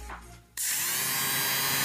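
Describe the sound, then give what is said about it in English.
A small electric lint remover switches on abruptly after a quiet moment. Its motor then runs at a steady, high-pitched buzzing whine that stays even and unbroken to the end. “But it's actually the sound of a lint remover. I thought it was a razor, electric shaver. No, it's a lint remover.”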